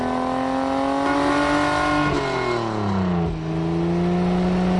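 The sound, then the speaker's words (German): A race car engine roars at speed along a road, loud and unbroken with no voices; its pitch creeps upward, drops sharply partway through, then levels off and holds. “Und schwupps ist Kali ein Kali-Rennauto und saust die Straße entlang.”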